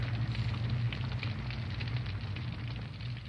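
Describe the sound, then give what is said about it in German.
Fire burning piles of books, a steady crackling roar with dense small pops over a low rumble, with no voices. “Na, Montag, ist das nicht eine Lust, Feuer zu legen? Ich wusste gar nicht, dass es noch Leute gibt, die so viele Bücher haben.”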